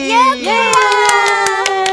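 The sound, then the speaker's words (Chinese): A handful of sharp hand claps welcoming a guest, spaced irregularly under continuous speaking voices. “那就让我们隆重掌声欢迎今天的小仙贝 Yuki。”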